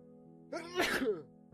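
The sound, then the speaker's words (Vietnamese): A man gives one strong, sharp sneeze while resting on a stone embankment by the water. It rises from a quick intake to a loud burst and is heard alone over a steady, quiet tonal background. “Gió không thổi, cảnh vật bình yên, mà bỗng nhiên thầy Lương lại hắt hơi một cái rõ mạnh.”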